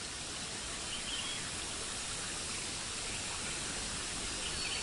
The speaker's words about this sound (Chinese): 置身于大自然里面，流水的声音包围着你，